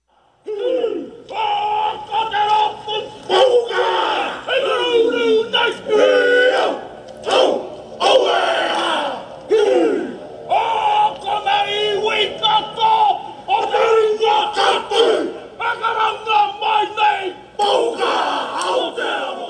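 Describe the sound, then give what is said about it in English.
Haka tribute performed by a biker gang in New Zealand: loud, rhythmic group shouts and chanted calls from many male voices, delivered in forceful bursts with brief pauses between phrases throughout. “That was the sound of the haka tribute performed by a biker gang in New Zealand.”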